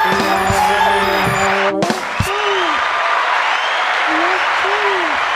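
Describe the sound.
A live studio audience applauds in a steady, dense wash of clapping that runs throughout, with voices and tonal sounds over it.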